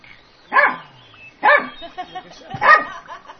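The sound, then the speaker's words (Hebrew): A dog barks three times in a loud, evenly spaced series, with softer sounds between the barks. “ועכשיו הגיע איזשהו כלב.”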